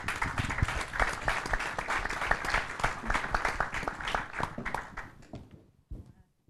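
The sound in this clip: Applause from a conference audience in Braga on breast cancer, greeting a city councillor called to the stage: dense clapping from many hands that thins and fades out near the end, leaving quiet.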